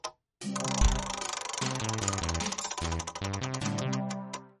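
A prize wheel spins in a game segment about military-surplus rifle collecting, its rapid clicking running continuously and spacing out toward the end as it slows, layered over bright musical chords.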